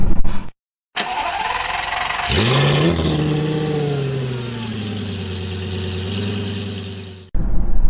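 A Lamborghini sports car engine starts with a sharp rising whine, then revs and settles into a loud, steady low idle before cutting off abruptly.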